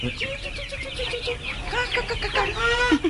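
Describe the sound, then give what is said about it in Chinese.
Chicks cheep with a busy run of many high, thin chirps and some clucking-like calls throughout. The chirping grows denser and brighter toward the end. “弊啦弊啦弊啦，嗰啲鸡仔嚟齐添嘅。”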